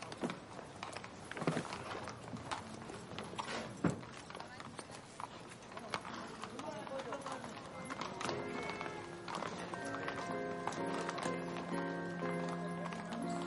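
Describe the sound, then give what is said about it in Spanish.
Horse hoofbeats sound as a captain turns his mount and rides off beside a carriage, a busy clatter of steps over dense background noise. “El capitán vuelve grupas y se aleja.”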